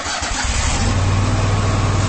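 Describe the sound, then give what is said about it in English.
Engine of a Kubota Commander zero-turn lawn mower starting up: a short rough crank settles into a steady, loud, low mechanical rumble with a revving drone and no talk. “That's the sound of the Commander, Kubota's top-selling zero-turn mower.”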